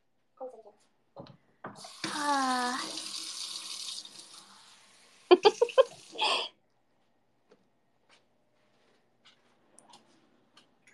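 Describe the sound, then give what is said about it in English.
Tap water running into a sink while it is being cleaned of dirt, a hissing gush lasting about two seconds, followed by a few short splashing or clattering bursts and then near silence. “I need you to clean up the sink.”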